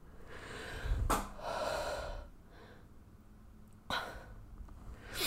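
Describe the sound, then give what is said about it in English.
A deep, breathy intake of air from someone who had been whispering, heard as a few soft rushes of breath with sharper bursts among them, alone with no talk. “I just had to take a massive breath of air, because why does whispering make me, like, run out of breath?”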